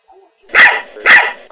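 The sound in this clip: Two sharp, loud barks from a dog, evenly spaced and heard on their own with no talk around them.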